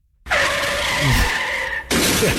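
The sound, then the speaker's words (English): A truck ramming into a Taco Bell bathroom, a loud sustained screeching, grinding roar that breaks off briefly and then resumes, with no voices. “rammed their truck right into the bathroom? Exactly.”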